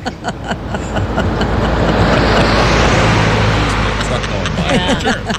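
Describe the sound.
Car engine and road rumble as Ringo Starr drives to a rehearsal for his All-Starr Band tour, a loud, steady low drone with talking over it.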